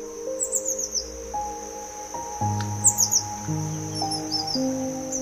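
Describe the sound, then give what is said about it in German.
A small bird twitters in a few quick, high-pitched chirping bursts as it flies away, heard over a soft, sustained tonal backdrop. “Damit fliegt der süße Vogel davon.”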